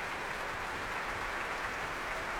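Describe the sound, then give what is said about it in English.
Faint, continuous applause from an orchestra clapping a soloist and conductor as they return to the stage at a London concert, a smooth, even wash of many hands with no distinct individual claps. “Back they come. The orchestra cheering and clapping Nicola Benedetti”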